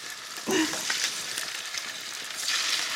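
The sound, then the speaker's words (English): Garlic sizzles in hot olive oil, a continuous bright frying hiss with a crackling surge near the start and another toward the end. “So I put a little bit of garlic in the olive oil. It's very fancy.”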